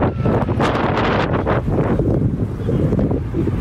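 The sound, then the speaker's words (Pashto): Strong wind blowing through an earthquake survivors' tent camp in Zindajan district, a loud, continuous roar with heavy buffeting against the microphone and a few sharper gusts near the start. “دلته سخت بادونه او توپانونه چلیږي.”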